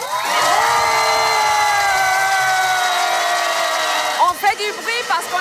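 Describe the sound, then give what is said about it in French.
A crowd at a demonstration yells and shouts together as loudly as possible in one long sustained roar, which breaks up near the end into a few scattered, choppy shouts. “Sur trois, on va faire un maximum de bruit.”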